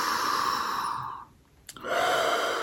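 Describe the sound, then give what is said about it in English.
Deep breathing, a long airy inhale that fades into a short quiet pause, followed by a soft click and another steady, breathy breath. “So let's just take a couple breaths. We'll take an inhale.”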